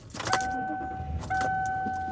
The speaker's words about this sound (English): I am driving home.